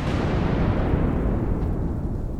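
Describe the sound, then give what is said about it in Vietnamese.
A loud thunderclap from a lightning strike rolls as a deep, heavy rumble that fills the whole clip, sustained and dense, with no separate cracks standing out. “Giây phút tia sét đánh ngang một cái ầm thật to.”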